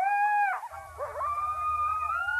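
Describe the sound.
Coyotes howling: a high, steady howl breaks into tangled, warbling yips and wavering cries, then settles into a long, sustained howl over a low rumble.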